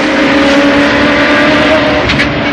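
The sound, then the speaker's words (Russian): A car engine roars as the car speeds around a bend, a loud, steady hum with sustained tonal bands and no voices. “Машина несется по виражу.”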